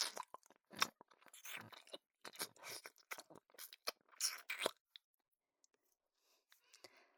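Someone chews and eats cake with soft, moist mouth clicks and faint crunches in irregular bursts, quiet overall, then trailing off into near silence.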